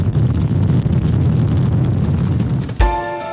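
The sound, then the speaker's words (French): Deep, steady roar of the SLS rocket lifting off from pad 39B at Kennedy Space Center on the Artemis 1 mission, loud and rumbling throughout, then broken off near the end by a sharp thump and a brief tonal ring. “La fusée SLS a décollé du pas de tir 39B du Centre spatial Kennedy le 16 novembre, presque à l'heure dite, devant les caméras du monde entier, dont celle de BFM TV”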